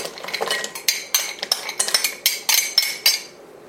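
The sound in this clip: A metal utensil clinks repeatedly against a glass heat-proof bowl set over simmering water while butter and chocolate melt. Many bright, sharp clinks come in a quick, irregular series, with no other sound.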